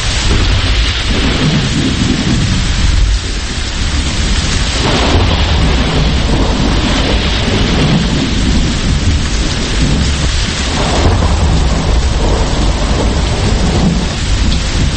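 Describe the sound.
Heavy rain pours steadily during a thunderstorm with lightning, while deep thunder rumbles and rolls underneath. The roar stays loud and unbroken from start to finish.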